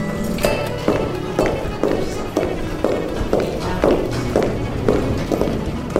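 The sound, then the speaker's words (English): Four-inch high heels pound on linoleum on the way to a city council meeting, a steady run of sharp, loud clacks at an even walking pace. “Speaking of heels, this is in fact the sound of Stu's 4-inch heels pounding on linoleum as he goes to a city council meeting.”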